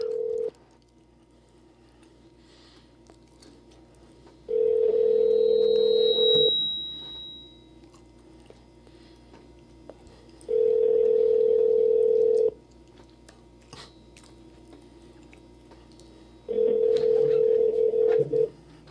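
A telephone ringback tone sounds while a call goes unanswered. It repeats as steady, even bursts of about two seconds, separated by longer quiet gaps: the first burst is cut off, then three full rings follow, over a faint low hum.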